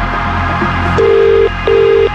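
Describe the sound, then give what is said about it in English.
A telephone call rings out after being dialed, with two long, steady electronic ring tones separated by a short gap over a constant background hum. “Keep a close eye on that phone. We're making this call right now. And you need to answer within 5 rings.”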